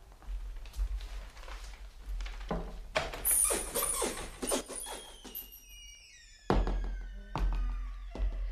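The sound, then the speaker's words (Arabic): Knocking on a door: a few dull, heavy thuds spaced apart near the end, among other clattering and bumping sounds and a thin, ringing tone that fades. “وذات صباح دق الباب عليها فأرهفت أذنيها.”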